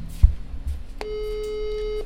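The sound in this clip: A telephone busy signal sounds on an unanswered call: a low thump and a brief click come first, then a steady electronic tone starts midway and holds without a break to the end.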